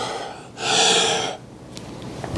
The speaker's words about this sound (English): He's breathing. He's breathing. He's breathing. Why are you breathing? Stop breathing.